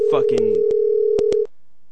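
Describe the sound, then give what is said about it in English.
A telephone dial tone heard while placing a call: a steady, pure mid-pitched tone, briefly mixed at the start with a short burst of voice-like sound and broken by several sharp clicks, then cutting off abruptly. “I'm calling Shawnee Murphy again.”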